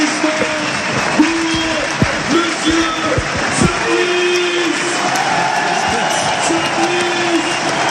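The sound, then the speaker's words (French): Stadium crowd applause and cheering for a veteran rugby player with 300 professional matches as he leaves the pitch before retiring, a dense sustained wash of noise with talking over it. “Et ça va être l'ovation de Gwen Duplaine.”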